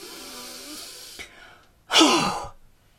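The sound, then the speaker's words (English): A forceful, breathy exhale with a voiced tone, like breathing out to fog a mirror during a breathing exercise, comes as one loud rushing burst after a quieter stretch and tails off quickly. “now you're going to breathe out with force to fog that mirror. And you can make a sound as you do.”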